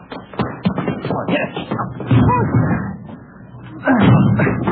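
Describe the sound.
Heavy thuds and slams as people ram against a front door blocked by something piled behind it, with a series of hard, irregular impacts and voices among the blows.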